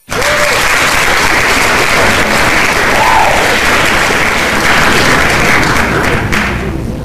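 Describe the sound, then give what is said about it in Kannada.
Applause sound effect plays as a reward for listeners who sent correct quiz answers. Dense, loud clapping runs steadily for about seven seconds with no voices over it and eases slightly at the end. “ಯಾರೆಲ್ಲ ಸರಿಯಾದ ಉತ್ತರವನ್ನ ಕಳಿಸಿದ್ದೀರಾ, exactly ನಿಮಗೆ ನಮ್ಮ ಕಡೆಯಿಂದ ಚಪ್ಪಾಳೆ ಬರ್ತಾ ಇದೆ, ದಯಮಾಡಿ ಸ್ವೀಕರಿಸಿ.”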